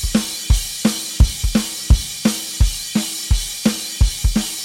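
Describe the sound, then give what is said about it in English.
A plain, open drum groove in the style of Dave Grohl, played on kick, crash cymbal and snare: booming kick strokes and crisp snare hits alternate at a steady, even tempo under a continuous wash of crash cymbal. “The drums are playing a really open thing just up on the crash, just kick, crash, and snare. And if it weren't for the one kick drum note that I'm about to emphasize, Grohl's groove would actually just be a pretty straightforward groove like he's been doing this whole time. It would sound like this.”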